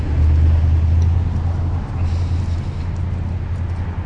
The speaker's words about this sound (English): Once I get on the little quieter street here, maybe we won't have so much noise.